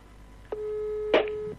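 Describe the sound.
Telephone tone while placing a call: a steady, even beep holds for about a second, opened by a soft click and interrupted near its end by a sharper click, with no talk.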